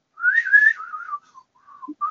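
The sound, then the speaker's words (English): Whistled film theme tune, a single melodic line performed alone with a wavering pitch, opening on a loud sustained phrase, then trailing into softer notes broken by brief gaps. “Very bad whistle of that.”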